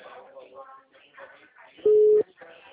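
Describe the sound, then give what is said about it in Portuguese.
A single loud, low, steady telephone busy-signal tone sounds briefly among ongoing talking voices. The voices continue on either side of the tone. “Não, tá dando ocupado.”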